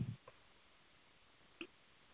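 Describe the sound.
Computer mouse clicks: two faint, sharp ticks more than a second apart in near silence, with a soft low thump at the very start.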